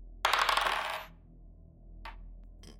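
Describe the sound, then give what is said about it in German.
Dice rolled for a stealth check in a tabletop role-playing game give a rattling clatter lasting under a second, then two brief clicks as they settle, over a faint steady hum. “Bitte würfel.”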